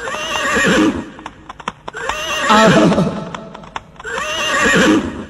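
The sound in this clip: A mare whinnies three times in loud, wavering neighs spaced about two seconds apart, with sharp clip-clop hoof taps filling the gaps between calls.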